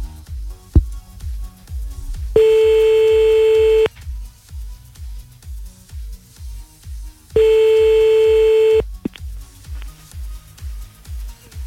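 A French-style ringback tone sounds on a telephone line as an outgoing call rings. There are two long, steady beeps of about 1.5 seconds each, separated by a pause, over a low, rhythmic pulsing background.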